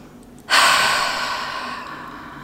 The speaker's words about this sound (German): Nimm einmal einen tiefen Atemzug